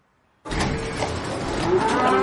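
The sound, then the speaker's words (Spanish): A cow at a livestock auction lets out one long, loud, low moo that starts abruptly and holds steady for about two seconds, with no other voices. “George controla las vacas en una subasta de ganado.”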